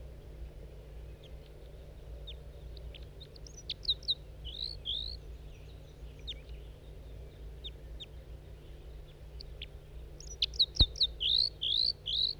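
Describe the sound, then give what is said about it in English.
Calls of a wild male bird near its flock: short high chirps in two clusters, a few around the middle and a denser run near the end, over a steady low hum. “That was the wild male. There he goes, joined the flock. He was calling before, over there.”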